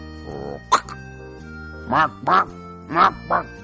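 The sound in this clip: Quacking of a duckling: a few short, nasal, harmonic calls, the later ones coming in quick pairs and standing out clearly above a quiet background.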